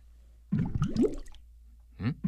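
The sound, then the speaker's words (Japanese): Water gurgles in a clogged toilet that has been flushed but won't drain, with a squishy burst of about a second, a pause, then two short gurgles. “あれ？流れてない！トイレ詰まっとるじゃん！”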